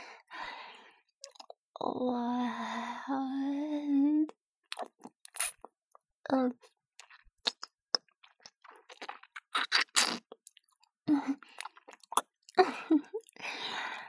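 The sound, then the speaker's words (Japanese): Wet tongue-licking ASMR sounds: many soft, irregular clicks, smacks and squishy mouth noises, with a drawn-out voiced sound early on and quiet gaps between bursts. “舌で、全体を清めて。”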